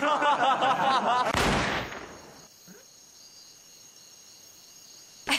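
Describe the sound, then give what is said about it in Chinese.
A single loud, sharp gunshot from a Browning pistol fires accidentally, cutting off a man's voice. The blast decays quickly into a steady, high-pitched ringing tone. “哎呀，爹，这么好的枪还能走火啊？”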